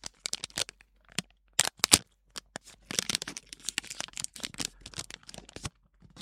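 An item is pulled free of its packaging, producing many irregular bursts of crinkling, rustling and tearing, with sharper loud snaps early on and busier rustling toward the end.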